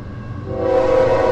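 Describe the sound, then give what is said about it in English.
A BNSF locomotive sounds its horn as a slow-moving train picks up speed: a low rumble first, then a loud, sustained, steady horn blast starts partway through and holds to the end. “This is sort of a slow-moving train. It's a slow-moving train. It's taking a while. I looked down. It was parked, but I think it's picking up speed now, and boy, is he leaning on that horn.”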